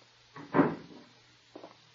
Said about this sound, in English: I just thought I'd examine the lock on the door here.